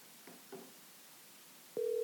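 A telephone call rings out as a caller phones someone. After a couple of faint clicks, a steady, even ringing tone starts near the end and holds.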